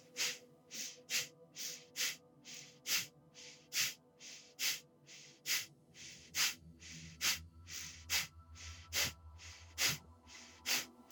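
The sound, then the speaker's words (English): Rapid, sharp breaths are pushed out through the nose during a breathing exercise, the belly pumping in on each exhale. Many short, hissing puffs repeat in a steady quick rhythm, about two each second. They are quiet and heard alone. “Then, speeding up the pace of your breath as it feels comfortable.”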